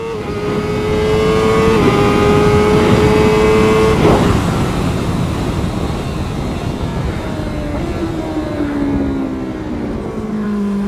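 A Honda CBR motorcycle engine runs at low revs while entering a corner: a loud, steady droning roar whose pitch drops partway through and settles lower, with no talk.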